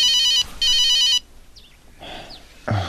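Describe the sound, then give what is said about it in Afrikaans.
A telephone ringing with an incoming call: two loud bursts of bright electronic ringing with a short gap between them, followed by quieter faint sounds. “Dis pa. Wonder wat wou hy vir my. Hoekom antwoord jy hom nie? Nee, ek sal hom later terugbel.”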